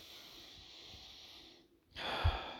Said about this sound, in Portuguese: Acabei de respirar profundamente aqui agora